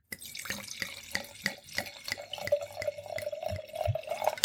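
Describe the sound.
Red wine, apparently a Pinot, is poured into a wine glass, a trickling splash whose ringing tone climbs in pitch as the glass fills, ending with a louder gush.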